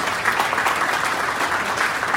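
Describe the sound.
Applause at an awards ceremony honouring the creator of the Keystone Awards: a steady, dense wash of clapping from many hands that holds at an even level for the whole stretch, with no voices standing out.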